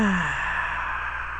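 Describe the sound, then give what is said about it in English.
A deep breath out during a guided breathing exercise: one long sigh that opens with a brief voiced tone sliding lower, then trails into soft, breathy air. “Take a deep breath in. That's it. And breathe out.”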